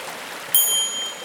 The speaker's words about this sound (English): It looks like his little stream is going to flow into some larger streams as he races down the mountain